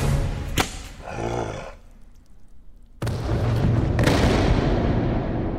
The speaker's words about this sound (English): Nice shot!